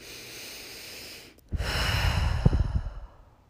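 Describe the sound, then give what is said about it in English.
A single slow, deep breath during a guided breathing exercise. After a quiet moment, a long, airy exhalation swells in and fades out over about two seconds, with no talking. “and take deep breaths”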